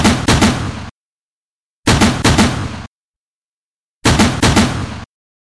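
An automatic cannon fires shells in three short bursts, each a loud string of several rapid booming shots, with silent gaps between the bursts.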